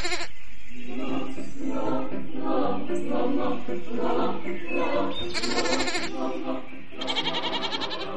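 Young goats bleating, many loud, wavering cries in quick succession that grow more insistent toward the end.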